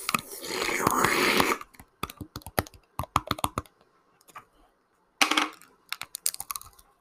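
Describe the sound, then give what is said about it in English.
Crinkly rustling and tearing as the foil seal is peeled off a Tropicana orange juice bottle. A loud continuous stretch comes first, then scattered sharp clicks and taps with pauses, a short second burst of crinkling and a few more clicks. “It's just a normal lid. And then peel the little top off.”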